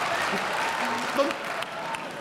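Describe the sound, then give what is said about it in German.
Applause from an audience at a comedic talk on regional grammar, a dense even patter of clapping that stays moderately soft, with a voice speaking over it. “Da klatscht der Westfale, das war mir klar.”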